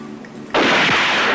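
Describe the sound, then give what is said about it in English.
A single handgun shot fired after drawing from a holster: a sudden loud crack after a quiet moment, followed by a long, full-bodied ringing decay. “Draw the weapon out of the holster slowly. Raise it to arm's length. Squeeze the trigger. Don't pull it.”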